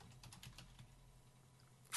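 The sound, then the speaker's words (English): Faint typing on a computer keyboard, entering a search: a quick run of soft key clicks, then near silence, ending in a brief louder burst. “I typed in Actual Sunshine Kotaku, and I can't find it.”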